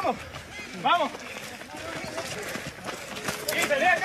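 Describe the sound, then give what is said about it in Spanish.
Footsteps of many people running in a race pound in a rapid, uneven patter beneath loud shouting voices and crowd noise. “Con el audio del ambiente, los pasos son, mirá, tratando de correr una carrera que es un tren.”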